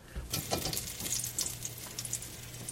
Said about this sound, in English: So this is a real quick fry. You're not going to let it go for long.